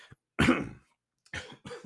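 Coughing from a tickle in the throat: three dry coughs in quick succession, the first louder and longer, the next two shorter and closely spaced, with no speech around them.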